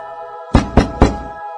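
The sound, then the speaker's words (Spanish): Three sharp knocks on a wooden door, struck in quick, even succession, loud against a low sustained tone. “De nuevo e insistentemente golpearon la puerta.”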